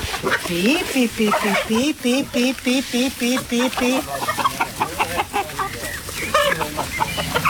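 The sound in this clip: Free-range hens cluck in a rapid run of short, evenly repeated clucks, followed by looser, scattered calls. A human voice can be heard at times among them.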